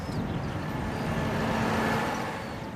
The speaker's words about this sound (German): Laurenz Albrecht fährt 12 Stundenkilometer schnell mit einer großen Feldspritze über einen Weizenacker